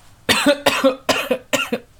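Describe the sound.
Harsh, choking coughs after something went down the wrong way: a rapid run of several loud, rough bursts in close succession, with no talking.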